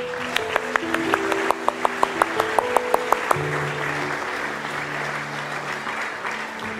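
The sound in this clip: A church audience claps in praise of the Lord, at first in a quick, steady rhythm of many sharp claps over a bed of applause, then settling into a softer, looser patter with voices and a sustained tone beneath.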